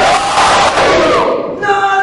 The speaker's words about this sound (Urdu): پوری طاقت کے ساتھ نعرہ حیدری حیدری حیدری